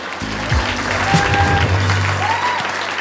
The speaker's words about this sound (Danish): Giv en stor hånd til Mads Holm!